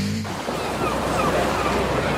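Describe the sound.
Ocean waves wash onto a beach in a steady, broad rushing surf that holds at an even level without distinct breaks, with no talk.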